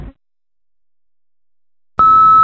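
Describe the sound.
An answering machine cuts off a call with a single steady, high-pitched beep lasting about half a second, sounding alone after near silence.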